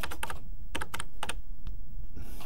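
Keys are pressed on a computer keyboard to enter a number code, in a few quick clusters of sharp clicks over a steady background hiss, with no talk.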